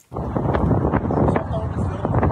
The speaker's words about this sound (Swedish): Det blåser en svag vind över Kobis hill, en kullesterot i södra Israel, med utsikt över norra Gaza.